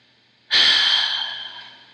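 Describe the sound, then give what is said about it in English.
A single deep breath comes as a long, airy hiss that starts abruptly and fades slowly for about a second and a half, heard alone without talk. “Let's take a deep breath together about what you're letting go of in that timeline.”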